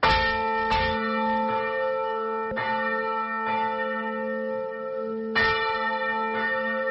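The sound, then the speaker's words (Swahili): A Catholic church bell in Burundi calls worshippers to Sunday prayer, ringing alone with a series of resonant strikes at uneven intervals, each leaving a long, humming decay. “Kama kawaida ya kila siku ya Jumapili, kengele hiyo ambayo inawatolea wito waumini wa dini Katoliki kuitikia ibada ya sala inaendelea kusikika katika makanisa Katoliki ya maeneo yote ya nchi ya Burund”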